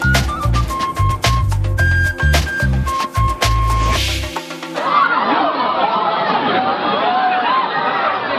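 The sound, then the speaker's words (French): A crowd of enthusiastic fans greets author Bernard Werber as he enters a packed amphitheatre in South Korea. Loud music with heavy bass plays for about four seconds, then gives way to a steady babble of excited crowd voices and chatter. “Cet accueil triomphal digne d'une rockstar, c'est Bernard Werber en Corée du Sud qui entre dans un amphithéâtre plein à craquer de fans enthousiastes qui prennent des photos de leur idole avec leur téléphone portable.”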